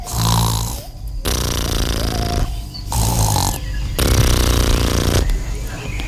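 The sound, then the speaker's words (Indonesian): Snoring from a character who has fallen asleep in a village folk tale: a series of long, loud, rattling snores that repeat with short gaps between them. “Kebo Iwa ngantuk dan ketiduran.”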